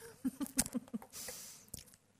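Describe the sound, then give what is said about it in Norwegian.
Chewing on sugar gives a few soft, moist crunching bites close together, then a brief burst of rustling noise and one more crisp crunch, all fairly faint. “Bare tygge opp sukkeret.”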